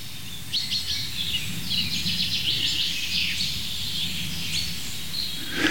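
An excited bird repeats many sharp, high 'pink' calls in quick irregular succession, fairly faint over a steady background hiss, with no voices.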